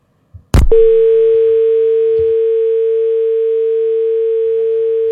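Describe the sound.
A telephone dial tone sounds while a call is being placed. A sharp click comes first, then a loud, steady, unbroken tone holds at one pitch for several seconds.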